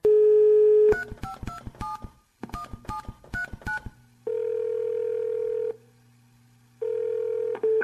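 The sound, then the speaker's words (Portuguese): A telephone line starts with a steady dial tone, then two quick runs of keypad dialing beeps, followed by long, even ringing tones separated by a pause. “Vamos ligar para o matemático Carlos Frederico Palmeira, da PUC-Rio.”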